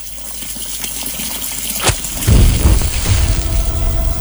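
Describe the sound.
Water gushes from a tap in Colorado: a brief sharp tick, then a loud, steady rushing flow that starts about halfway through and continues to the end.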